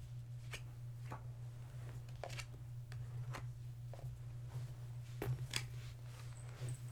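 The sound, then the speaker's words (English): Tarot cards being laid out on a table: many soft, crisp snaps and slaps at irregular intervals, quiet overall, over a low steady hum. “I'm just gonna lay some cards out.”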